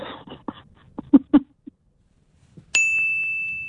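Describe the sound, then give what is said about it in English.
A quiz-answer ding rings out once, bright and clear, and holds as a sustained tone, following a few brief faint vocal sounds. “As you can tell, I'm not in charge of the dinger. I'm going to call it the dinger.”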